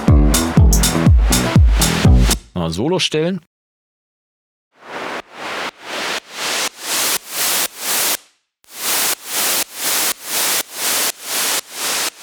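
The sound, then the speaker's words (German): A synth's noisy, hissing tone pumps in quarter notes under sidechain compression, swelling and ducking in many even pulses after a pause. It is preceded by a short melodic passage and a brief spoken phrase. “Du hast diesen coolen Sidechain-Effekt, kannst das natürlich auch auf jedem anderen Signal benutzen, aber hier ist es wirklich perfekt.”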